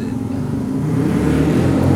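Race vehicles running at the Mandalika circuit give off a continuous, loud, low engine drone with a broad rushing noise on top and no clear breaks.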